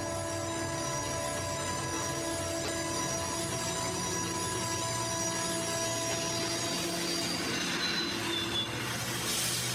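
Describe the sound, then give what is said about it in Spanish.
A train brakes on its rails: a sustained, high metallic wheel squeal of steady pitch rides over a constant low rumble, loud and unbroken throughout, with no voices. “El tren frena a centímetros de Fontán.”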